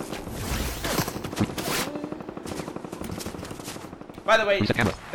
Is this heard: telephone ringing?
no